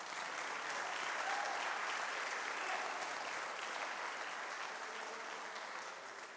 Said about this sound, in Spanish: Dele fuerte el aplauso al Señor.